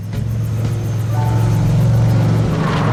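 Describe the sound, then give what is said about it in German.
Steady low engine drone of a quad bike driving slowly across a gorge, a constant rumbling hum that holds even throughout with no talk. “Vorsichtig lenkte Ryder sein Quad auf die andere Seite der Schlucht und drehte sich dann zu Tracker um.”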